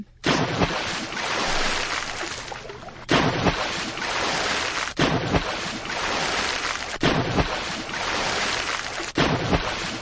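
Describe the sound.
Water splashing sound effect: loud, continuous rushing and churning water noise that comes in several surges, each starting abruptly, with no voices.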